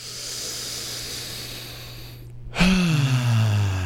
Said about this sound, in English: And now let's fill those lungs up again.